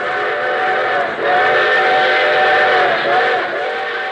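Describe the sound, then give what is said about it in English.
A railroad train whistle sounds a loud, sustained chord of several blended tones, holding steady for the whole clip with a slight dip and recovery near the end. “What friendly, familiar sound comes to your mind when you think of the railroads that serve your community? Is it something like this?”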